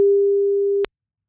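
A telephone line tone: one steady, mid-pitched electronic hum holds evenly for under a second, then cuts off abruptly with a short click before silence.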